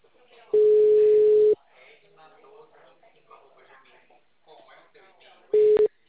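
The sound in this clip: Ringback tone of a phone call that goes unanswered: two steady, even tone bursts, the first lasting about a second and the second shorter, with quiet talk in the gap between them.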